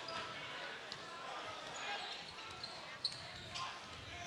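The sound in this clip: A basketball is dribbled on the court during a game, with a few sharp bounces standing out under steady, loud crowd noise.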